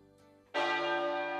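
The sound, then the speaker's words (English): A single clock tower bell strikes after a quiet opening, a sudden bright, resonant clang whose rich ringing tone sustains loudly and fades only slightly toward the end. “The bell in the clock tower rang out 11 times.”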